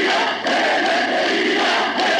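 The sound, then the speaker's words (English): An old recording of a crowd at a poet's funeral shouting a word meaning immortal, a loud, dense roar of many voices that holds steady with only brief dips. “That was a recording of Seferis's funeral. The crowd is shouting Athanatos, or immortal, in reference to the poet's standing.”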